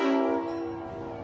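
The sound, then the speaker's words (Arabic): A passing train gives a strong, steady horn-like harmonic tone that is loudest at the start and then slowly fades, with a low rumble underneath. “اهو، قطر جاي ربنا يستر من حوادث القطارات وناخد بالنا قوي اهو، قطر معدي 70 ديسيبل او 70 هرتز اللي هو انت ممكن تتحمله بس هو بيزعجك شويه.”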